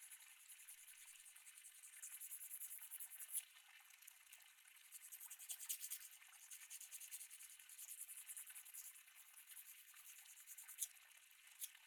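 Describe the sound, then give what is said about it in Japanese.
Fingernails being filed with a nail file after clipping, a faint, continuous scratchy rasp of repeated strokes that swells and eases with no talk. “小指まで切ったらヤスリをかけるのを忘れるなよ。”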